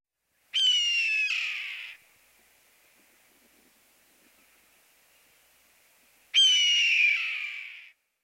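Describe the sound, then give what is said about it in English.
Red-tailed hawk calls: two loud, harsh, descending screams, each about one and a half seconds long, separated by several seconds of quiet. “Red-tailed Hawk.”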